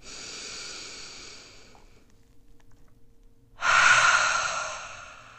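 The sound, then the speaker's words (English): Deep inhale during a breathing meditation: a softer breath trails off into a short quiet pause, then a loud, long airy intake of breath rises sharply and holds to the end. “Two more times. Inhale.”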